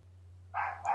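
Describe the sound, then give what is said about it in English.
Household dogs barking indoors: two short, sharp barks in quick succession near the end, the first longer than the second, over a low steady hum. “I'm sorry, my dogs are barking again. I can't make them be quiet because it's all the fault of the Labrador over the road that won't shut up.”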